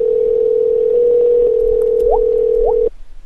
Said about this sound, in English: Wow, that dual ringing is kind of cool.